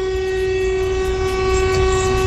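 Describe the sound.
A horn blares during a honking protest, holding one long, loud, steady tone at a constant pitch without a break.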